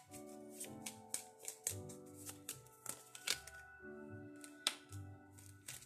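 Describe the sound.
A deck of cards is shuffled, a quiet run of many quick, soft riffling snaps and taps in an uneven rhythm.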